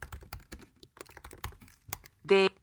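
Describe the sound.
Someone types on a computer keyboard into a spreadsheet in a quick, uneven run of many light clicks, ending with a short tonal beep.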